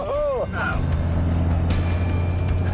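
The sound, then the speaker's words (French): A stock rear-wheel-drive Cosworth car being driven, its engine a steady, loud, low drone that runs throughout, with a few brief tonal sweeps near the start. “Avec toute la puissance envoyée directement en roue arrière, cette Cosworth d'origine n'est pas des plus faciles à dompter.”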